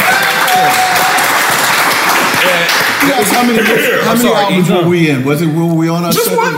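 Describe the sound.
An audience cheers and applauds at a live event with musicians. Loud, steady clapping and cheering runs throughout, and a voice begins speaking over the noise about halfway through.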